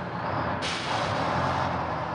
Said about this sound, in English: A bus came, but she didn't get on it.